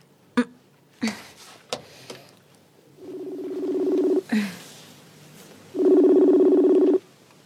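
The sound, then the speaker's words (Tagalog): A telephone call is placed: a few sharp clicks as the number is entered, then two long, low buzzing ring tones, each lasting about a second, separated by a brief pause. “Ang mayo pa, tawagan ko siya kung ano gusto niya nga pasalubong.”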